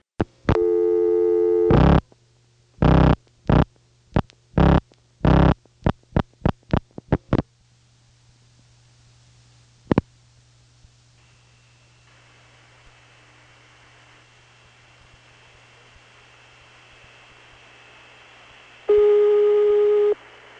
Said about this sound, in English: you could get the call to go through to the non-dialable Trinidad tandem and get the recording there.